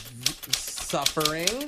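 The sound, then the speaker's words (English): Typewriter keys clack in a handful of sharp, evenly spaced strikes while a person talks over them. “You're using a typewriter.”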